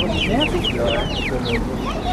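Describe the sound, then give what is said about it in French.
Laying hens clucking at a market: many quick, chattering clucks and squawks overlapping in a busy run, set against a steady murmur of people talking. “C'est combien les poules pondeuses?”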